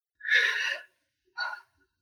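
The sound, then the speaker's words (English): A dog snoring: two soft, breathy, airy snorts, the first longer and fuller, the second shorter, separated by a brief silence and heard faintly on their own. “that's my dog snoring. Sorry. I love him. he just is snoring all the time in my life.”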